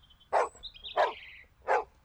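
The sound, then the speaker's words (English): A dog barks three times in an even rhythm. Each bark is a sharp, mid-pitched yelp separated by short gaps, with no talk around them. “"Why is Rusty barking?" Rusty is standing by a ditch. He barks and barks.”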